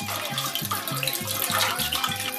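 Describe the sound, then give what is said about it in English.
Liquid being poured for a mixed drink, a steady splashing hiss with a faint, regular low gurgling pulse running through it. “Perfect. A perfect pour.”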